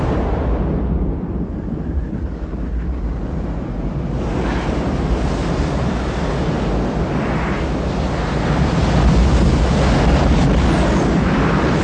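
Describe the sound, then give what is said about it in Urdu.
Heavy ocean surf and wind, standing in for tsunami waves raised by a large meteor falling into the sea, a continuous roaring wash with gusty low rumble that swells slightly louder toward the end. “ایک بڑے شہاب ثاقب کے سمندر میں گرنے سے جو بحری موجیں پیدا ہوتی ہیں وہ سارے شہر کو غرق کر دیتی ہیں۔”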